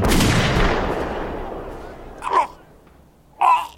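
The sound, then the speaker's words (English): Rifle fire in a dramatized story: a loud shot bursts at the start and fades through a long decaying tail, then two brief, sharp bursts follow. “Rama raises his rifle. Please, please have mercy on him! Shoot, Rama!”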